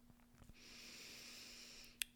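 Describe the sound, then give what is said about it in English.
A single deep breath, a long soft airy exhale held for over a second, followed by a brief sharp click. “I've taken a minute to breathe. Let's all breathe together.”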